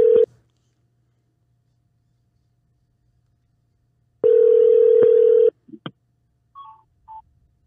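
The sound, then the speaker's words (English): A telephone call being placed: a brief steady tone at the start, then after a silence a longer, loud steady tone of about a second, followed by a few short clicks and faint dialing beeps. “Need to call someone in here to get some more information on last night's fights. Let's see if we can get Jim on the line here. Not sure if he's going to answer.”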